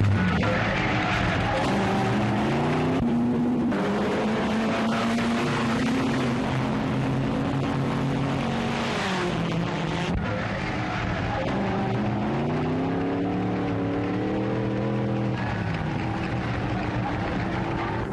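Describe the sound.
Engines of 1930s racing cars starting the 1935 Monaco Grand Prix through narrow streets, from archive footage: a loud continuous droning roar whose pitch rises and falls several times.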